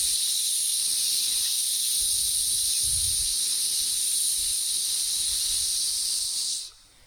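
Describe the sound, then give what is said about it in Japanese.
A long, steady hissing exhale through the teeth, done as an abdominal breathing exercise, holds an even 'sss' for about six and a half seconds and then stops abruptly. “とにかく吐き切る、やってみましょう。スーッと言いながら吐きます。”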